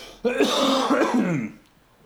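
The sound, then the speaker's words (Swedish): Throat clearing and a cough: one drawn-out, rough, voiced rasp lasting just over a second, heard alone without speech. “Jag måste hosta lite.”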